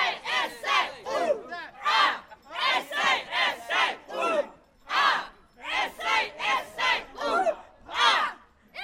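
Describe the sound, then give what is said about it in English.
South Australia team supporters cheer at the bowling during the Special Olympics National Games, loud rhythmic chanting and shouting in many short repeated bursts from a group of voices. “I think you can hear the South Australia are pumped at the bowling.”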